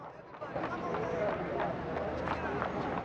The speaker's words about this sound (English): Roberta trips over the stall. She runs off.